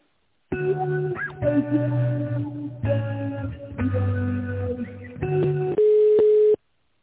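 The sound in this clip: Electronic phone line tones play while a call is transferred: a run of steady, buzzy tonal segments separated by brief breaks, ending on a single sustained pure tone before cutting off.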